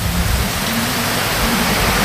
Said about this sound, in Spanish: Mira. Esta es lluvia.